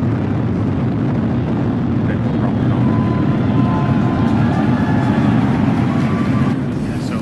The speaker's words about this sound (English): Ignition, liftoff. Vehicle is pitching downrange.